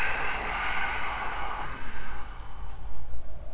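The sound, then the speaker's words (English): A long, deep exhale during a guided breathing exercise. A steady breathy rush of air lasts about one and a half seconds, then gives way to quieter breath noise. “Inhale, fill up from your belly all the way up to your heart, your collarbones. Press the air out.”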